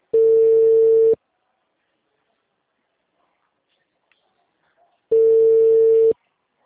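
Ringing tone of an outgoing telephone call: two steady, mid-pitched buzzing tone bursts of about a second each, separated by a long silence, with no voices.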